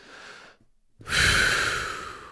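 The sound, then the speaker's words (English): Heavy breathing from a person after talking: a faint breath, a short silence, then one long, loud, rushing breath that slowly fades. “you're breathing heavy from having a conversation”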